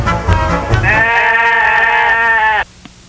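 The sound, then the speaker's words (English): A sheep bleat sound effect: one long, loud, quavering bleat that stops abruptly, followed by near silence. “You realize you hit the sheep so much you killed the intro music?”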